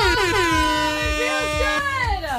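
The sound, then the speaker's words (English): A loud air horn blares in one sustained blast that dips slightly in pitch at the start, then holds a steady, brassy, harmonic-rich tone for the whole moment. “Like an air horn on a Thursday. I know. Our bosses love the air horn.”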